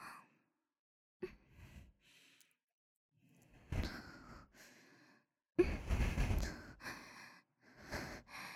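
Breathing close to the listener's ear: soft, airy breaths and sighs arrive in separate bursts with quiet gaps between them, including a few sharper intakes and heavier exhales.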